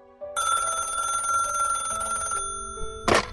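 A telephone rings with a bright, steady electronic trill lasting about two seconds, then falls silent before a short, loud burst of noise.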